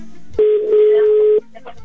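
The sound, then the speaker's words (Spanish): A telephone call ringing on the line after the number is redialed: one steady, mid-pitched ringback tone holds for about a second, then cuts off into quiet line hiss. “marcamos por segundo intento. Y esperemos que ese sea el bueno y que sí nos conteste.”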